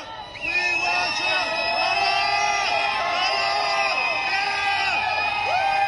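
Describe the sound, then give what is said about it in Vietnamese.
A crowd of supporters chants slogans and cheers as Trump's motorcade leaves court. Many overlapping voices shout loud, repeated phrases that keep up without a break. “Khi đoàn xe của ông Trump rời tòa án, những người ủng hộ hô vang khẩu hiệu "Chúng tôi yêu Trump".”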